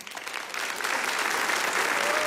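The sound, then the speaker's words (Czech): Applause from an audience in Bohumín greeting a guest arriving on stage, the clapping starting thinner and swelling into a full, sustained patter that stays loud to the end. “Takhle ti tleská bohumínská K3.”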